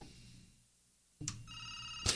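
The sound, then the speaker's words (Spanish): A telephone ringing: after about a second of near quiet, a bright, harmonic ringing tone sets in, marked by sharp, bell-like strikes. “sigue sonando el teléfono”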